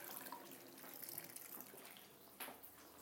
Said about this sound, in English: Oh, that's just my sink, because I've filled the washing up bowl quite full and the water is...